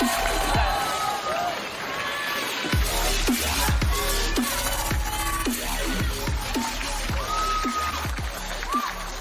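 A crowd applauds and cheers as a performer is introduced on stage at a Taiwanese show. The noisy roar is continuous and loud, with many whooping shouts rising and falling in pitch over the clapping.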